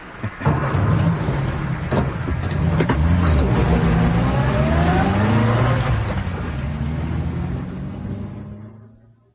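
A car engine roars and revs hard as it is driven fast, autocross style, along a common riding track, its pitch swinging up and down with acceleration for the whole stretch before fading out at the end.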